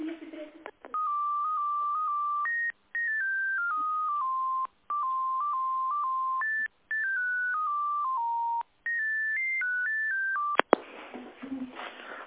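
Telephone keypad tones beep during a call transfer, a string of short pitched beeps in several runs separated by brief gaps, ending with a click and rough line noise.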